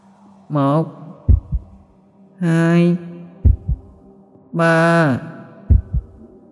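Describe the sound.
A pounding heartbeat effect in a tense horror hide-and-seek scene plays as three double thumps in a slow repeating cycle, each following a long droning, voice-like tonal swell.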